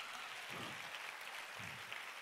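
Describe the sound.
Applause from a church audience, a steady, fairly quiet wash of clapping that holds evenly throughout with no voices over it.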